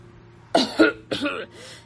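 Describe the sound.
A voice acts out a cough: a few short, harsh bursts followed by a rougher throat-clearing rasp, moderately loud and alone.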